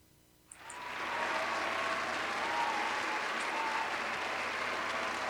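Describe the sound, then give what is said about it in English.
Applause from a crowd cheering a win at a memorial rumble event. It breaks out abruptly after a brief quiet moment and holds as a dense, steady roar of clapping to the end. “That's lots of applause all around.”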